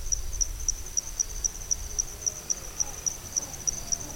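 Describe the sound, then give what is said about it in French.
Night ambience from the wet season, dominated by a cricket's high, rapid chirping in evenly spaced pulses, about three or four per second, steady throughout over a faint low rumble. “Et maintenant un son qui a été enregistré la nuit durant la saison humide.”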